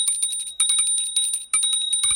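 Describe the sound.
A small bell, like a bicycle bell, rings in a series of rapid, bright, high-pitched trills. The rings come in a few repeated bursts with no voices.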